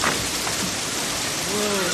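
Rain falls during a storm as a steady, even hiss at low level, unbroken and without distinct drops or thunder peaks through the short stretch.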